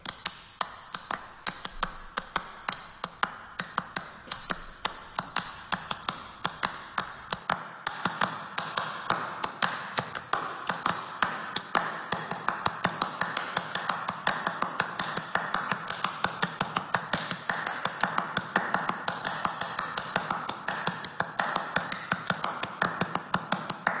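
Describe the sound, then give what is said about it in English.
Hands clap a crisp rhythmic pattern with short rests at first, then overlap into dense continuous clapping without gaps. Many sharp claps run steadily throughout. “it's like to clap this rhythm, and sort of we'll get up to the point, I think, where you can hear that originally there are rests, and then there's a point when it overlaps and there are no rests and it just is continuous clapping”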